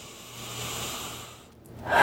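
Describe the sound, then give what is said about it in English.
One deep breath taken during a tapping relaxation exercise: a long, airy rush of air that swells and then fades, with a sharper breathy intake starting at the end. “Big deep breath.”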